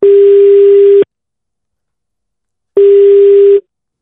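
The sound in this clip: Telephone ringback tone while a call is being placed: a loud, steady, mid-pitched hum lasting about a second, then silence, then a second identical tone, with no voices.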